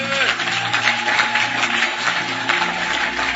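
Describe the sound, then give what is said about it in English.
Congregation clapping in praise for Jesus during a church service, dense continuous applause that stays steady and fairly loud throughout. “And that clap of praise is what attracts God your way. Now clap for Jesus.”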